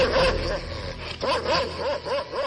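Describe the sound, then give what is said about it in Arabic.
A huge black dog barks and yips in short, pitched yelps that repeat several times over a loud, noisy background. “انا معرفش الكلب ده جاي منين، بس انا لقيته قدامي.”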